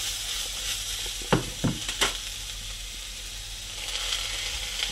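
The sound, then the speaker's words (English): A stir fry sizzles in a hot wok, a steady bright hiss of frying broken by a few sharp knocks and scrapes as the food is stirred. “I'm just gonna mix it up. I really like this sound when you're cooking. It's so nice.”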